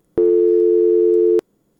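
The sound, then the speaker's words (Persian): Telephone busy signal after a radio listener's call dropped: a single loud, steady electronic tone lasting just over a second, cut off cleanly and followed by silence. “متاسفانه که تماس این شنونده ما قطع شد.”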